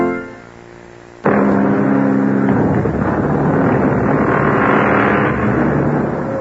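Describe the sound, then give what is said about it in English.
Battle sound effects from a radio adventure drama about Henry Fleming: a faint tonal sound gives way, just past one second, to a sudden loud, sustained roaring rumble that carries on steadily to the end. “The first battle appears to be over now. The enemy is attacked and retreated.”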